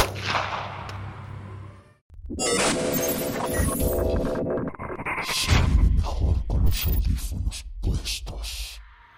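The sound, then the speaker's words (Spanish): A gunshot sound effect in a horror tale, as a masked man aims a gun and pulls the trigger: a loud sharp blast breaks a brief silence, followed by low rumbling and further heavy booms, with a voice faintly present. “Solo me dijo una sola oración antes de apuntarme con el arma y apretar el gatillo.”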